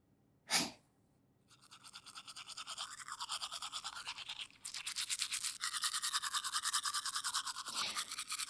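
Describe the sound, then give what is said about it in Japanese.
Teeth being brushed with a toothbrush on the other side of the mouth: rapid, steady back-and-forth scrubbing strokes after a single short knock, pausing briefly, then resuming louder and denser. “よし、反対側磨くか。うん、こっちの方が磨きやすそうだな。”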